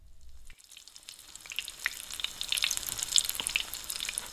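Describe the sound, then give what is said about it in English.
Hamburger frying in a pan, a faint sizzle that starts after a brief near-silence and builds into steady crackling hiss dotted with sharp little pops and spits. “First, fry the hamburger.”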